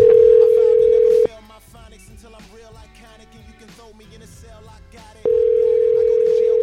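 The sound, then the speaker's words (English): A telephone dial tone sounds while a call is being placed. The steady, loud tone cuts off after about a second, gives way to a quieter stretch of other sounds, then returns unchanged and holds to the end. “I'm going to call from a different number now.”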